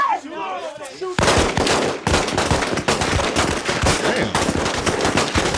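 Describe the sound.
Rapid gunfire erupts after a brief voice at the start, with loud, dense bursts of shots that run almost without pause to the end.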